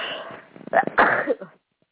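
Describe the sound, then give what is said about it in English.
A single sneeze bursts out sharp and loud after a short intake, then cuts off into silence. “oh, I sneezed on it.”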